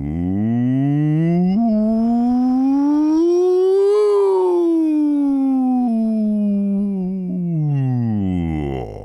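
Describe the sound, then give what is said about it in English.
A voice performs a vocal siren warm-up for a music lesson, one continuous hum-like tone sliding smoothly from low up to a high peak midway and then back down, steady and fairly loud for about nine seconds. “Vocal sirens help us warm up by taking us from our lowest sound all the way up to our highest sound in one nice slide. Try it one more time with me.”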